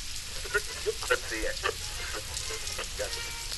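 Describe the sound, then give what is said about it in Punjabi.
Rain that has started again falls as a steady, soft hiss throughout, while someone speaks over it in short bursts. “ਹੁਣ ਮੈਂ ਘਰ ਕਿਵੇਂ ਜਾਵਾਂਗਾ, ਇਹ ਬਾਰਿਸ਼ ਫਿਰ ਸ਼ੁਰੂ ਹੋ ਗਈ ਹੈ।”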